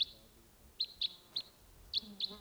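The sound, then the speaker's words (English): Decoy birds call with six short, high chirps spaced irregularly over a faint, hushed background, each note brief and thin. “Now no sign of it. Just the decoys calling there.”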